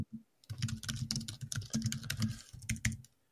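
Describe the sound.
Rapid computer keyboard typing while contracts are drafted: many quick keystrokes in an uneven, busy rhythm, fairly loud and without voices, stopping abruptly near the end.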